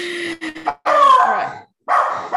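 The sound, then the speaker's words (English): A dog gives a few loud yelps and whining barks, some rising and wavering in pitch, with short pauses between them. “That's my dog. He agrees with everything you said. He's got some feelings.”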